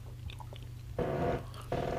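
Chewing and biting into a sticky date snack made with sour cherries and spices: two crunchy, wet bursts of mouth noise over a steady low hum.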